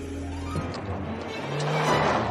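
A police car zooms along with a low, humming engine drone that swells louder and rougher toward the end of the short pass.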